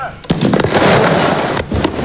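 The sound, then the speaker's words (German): Explosive demolition of an old football stadium in Bern: a sharp blast gives way to a loud, sustained roaring rumble, and a few more sharp cracks break through near the end. “Ja, dann ist nämlich das alte Wankdorf-Stadion gesprengt worden.”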